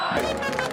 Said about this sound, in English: The roar of this crowd isn't just about the game.